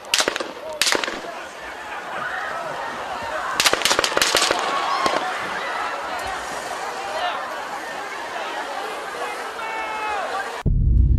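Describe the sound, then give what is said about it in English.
Gunshots fired into the crowd at a political rally: several sharp, loud cracks, some in quick bursts, over constant crowd hubbub with voices throughout. “As the gunfire rang out, rallygoers shouted, "Duck!"”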